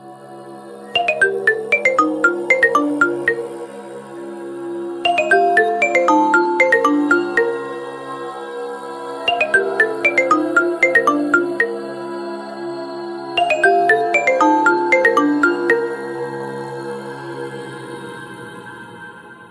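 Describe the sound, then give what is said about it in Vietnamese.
A Nokia mobile phone rings with a bright melodic ringtone. The same short tune of quick electronic notes plays four times in a steady, repeating pattern, loud and with no other sound. “Bên cạnh anh ta, chiếc điện thoại di động Nokia vẫn đang kêu vang.”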